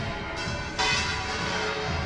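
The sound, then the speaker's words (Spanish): Church tower bells in Seville ring without pause during a military honours ceremony, a dense, continuous clangour that swells louder partway through and stays steady. “Esta Giralda que no cesa, que toca, que no dejan de tocar sus campanas.”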